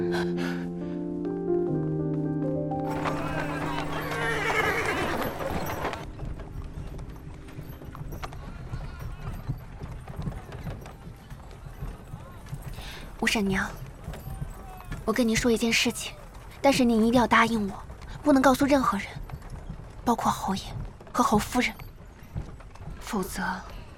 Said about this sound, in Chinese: 您坐我的马车走吧，我送送您。 走。